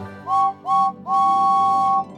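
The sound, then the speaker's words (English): A steam engine's whistle for a red number 5 engine: two short tonal toots followed by one longer sustained blast, bright and fairly high-pitched with a breathy edge, heard alone without talk. “he has a whistle that sounds like this.”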